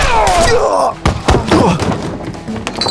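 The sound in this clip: Gunshots ring out in a Western gunfight as two men draw, a series of heavy, loud percussive bangs over a dense, rumbling backdrop, with several sharp blasts coming in quick succession.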